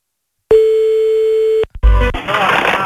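A telephone line tone sounds while calling back a Chinese restaurant: one steady, loud beep holds for about a second and cuts off. A couple of clicks follow, then a rough, noisy stretch.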